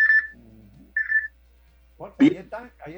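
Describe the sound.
Phone ringing for an incoming call: two short, steady electronic ring tones sound alone, followed by a person talking.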